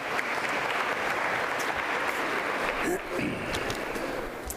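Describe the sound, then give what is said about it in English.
An audience at a talk on Christianity applauds to welcome a speaker, with dense, loud, steady clapping that fills the whole clip. “would you put your hands together and welcome Ian Powell, who's going to speak on Christianity for our last bit.”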